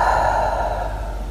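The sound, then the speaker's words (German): A deep, slow breath drawn in through the nose and released through slightly parted lips during a breathing exercise, heard as one steady, airy rush of air with no speech. “hier drei tiefe Atemzüge für dich nimmst. Durch die Nase ein, durch den leicht geöffneten Mund wieder aus”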